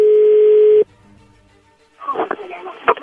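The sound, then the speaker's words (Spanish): A telephone call ringing through: a single loud, steady electronic tone that cuts off abruptly, followed by a short quiet gap, then a person talking. “Ya entró la llamada ahí.”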